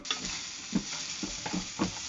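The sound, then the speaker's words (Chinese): Celery stir-frying over medium heat gives a steady sizzle, broken by a few sharp spatula scrapes and tosses at uneven intervals. “放入芹菜，然后用中火翻炒一下。”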